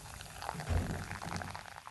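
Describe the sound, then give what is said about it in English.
Champagne pours from a bottle into a glass, giving a soft, continuous fizz and gurgle that swells briefly and stays faint throughout. “Now, you hold the bottle just like this and see how it's starting. And see, the bubbles are at the top and I can see them. And now I can see that they've stopped running up to the top. And now I know I can go up just like that and nothing is overflowing.”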